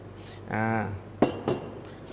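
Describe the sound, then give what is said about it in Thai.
A pestle pounds finely sliced lemongrass and galangal in a heavy stone mortar, giving two sharp knocks with a hard, clinking ring right after a voice speaks. “ในการตำนะครับวันนี้เราเลือกใช้เป็นครกหินเพราะครกหินเนี่ยมีน้ำหนักที่ดี”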